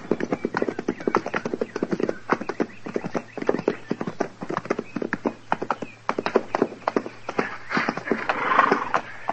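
Horses trotting near a fort, their hooves clip-clopping in a quick, uneven rhythm of many sharp knocks that carry on throughout.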